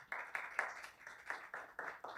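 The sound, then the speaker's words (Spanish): A church audience clapping their hands in praise to the Lord, a steady, evenly spaced rhythm of group claps kept fairly soft throughout. “Vamos a dar palmas al Señor.”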